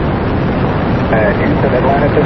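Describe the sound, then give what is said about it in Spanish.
Space Shuttle Atlantis lifts off from the Kennedy Space Center launch pad in Florida on its final mission, a dense, steady, loud roar that continues beneath a speaking voice. “desde la plataforma de lanzamiento del Centro Espacial Kennedy en Florida, despegó este viernes el transbordador espacial Atlantis para su última misión tras 25 años de servicio.”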